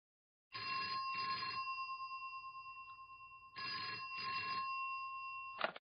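Ringing on an outgoing phone call comes through quietly as two long ring tones a few seconds apart, each with a pulsing, double-beat texture, ending with a small click.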